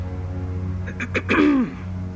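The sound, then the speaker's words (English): A woman clears her throat a second time: a short, raspy voiced rumble ending in a falling tone, heard alone over a steady low background hum. “Madame Lefort cleared her throat for a second time”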